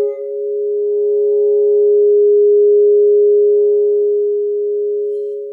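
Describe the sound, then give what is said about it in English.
A crystal singing bowl rings with a loud, pure, steady tone that holds almost unchanged for several seconds, smooth and sustained, with no talking over it. “The best thing about crystal singing bowls is that anyone can play them. They're probably the easiest instrument in the world to play. And they make really beautiful noise.”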